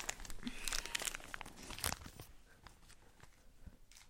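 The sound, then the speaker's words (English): Crinkling of a chocolate mint's wrapper as it is unwrapped, with faint, quick rustles that are busy at first and then thin out into sparser crackles. “Sir, you forgot to eat your chocolate mint. Let me just get it for you. Okay, let me unwrap it.”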